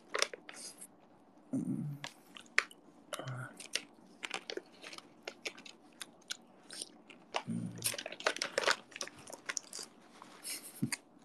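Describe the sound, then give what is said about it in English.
Close-up ASMR chewing and biting of food: many sharp, irregular crunches and smacking bites in uneven bursts, loud against a quiet background. “Let me open this for a while. ASMR, let's go. ASMR eating.”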